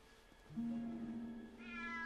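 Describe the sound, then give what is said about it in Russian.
A cat meows in a corridor: one long, drawn-out call held at a steady pitch, fairly loud and alone, fading into a softer tail at the end. “В коридоре сидит кот Филча”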